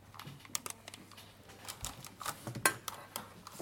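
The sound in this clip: The back of a spoon smoothing cake batter in a glass dish makes faint, irregular clicks, taps and soft scrapes, with one sharper knock.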